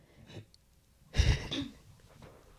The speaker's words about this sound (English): that's a growl. I'm clearing my throat.